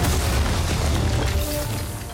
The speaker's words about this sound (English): Request dynamic precision strike at our mark. You did not just call it an airstrike. Oh, yes, I did.